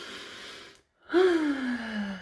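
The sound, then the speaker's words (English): A deep breath drawn in, noisy and steady, then after a brief silent pause a louder voiced out-breath that starts high and sinks gradually in pitch. “But y'all know how we start this podcast. We deep breathe.”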